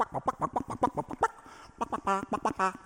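Orchestral music from the fifth movement of a suite, depicting chicks dancing in their eggshells: quick, light staccato notes in pecking, chirp-like figures, with fast repeated bright chords, fairly soft and without voices.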